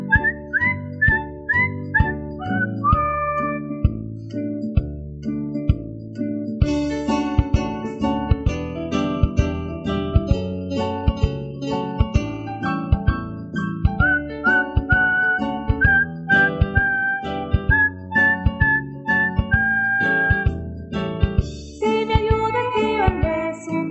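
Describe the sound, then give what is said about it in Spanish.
Melodic human whistling carries a long, continuous tune of bright sustained and gliding notes over a steady rhythmic pulse from start to finish. “me tendré que conformar solamente con silbar.”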